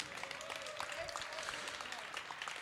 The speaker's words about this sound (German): Und Applaus für Mario bitte.